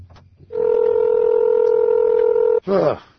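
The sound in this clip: A touch-tone telephone key tone from dialing a number: one steady two-note electronic tone held evenly for about two seconds, then cut off by a short burst that sounds like a voice.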